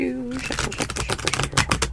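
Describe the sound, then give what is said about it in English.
Tarot cards are shuffled quickly, making a rapid, crisp run of papery clicks and flutters, with a voice heard briefly at the start. “But I am shuffling the cards. Terribly.”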